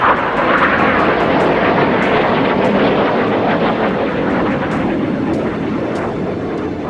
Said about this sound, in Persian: جنگنده های F-16 در کنترل کودتاچیان برای ایجاد رعب و وحشت در میان مردم، پروازهای ارتفاع پایین را بر فراز آنکارا آغاز کرده بودند.